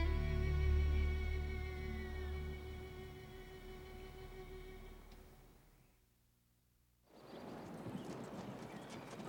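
Horses pull a moving wagon with steady clip-clopping hoofbeats. Sustained tones sound through the first part, then the sound dips briefly quiet before a rattling rush of hooves and wheels returns.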